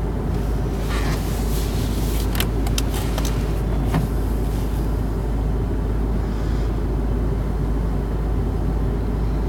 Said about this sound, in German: Haha, ich glaube, der fährt vor mir weg.